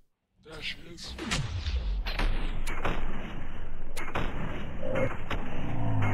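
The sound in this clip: A bombard-like weapon fires in a video game, producing several deep, heavy booms with rumbling tails over a loud, continuous bed of battle noise.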